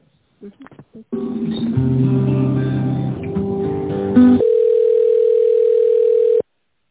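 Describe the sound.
Telephone line audio during a call transfer: a few short voice fragments, then a run of melodic electronic tones, then one steady, unbroken pitched line tone held until it cuts off.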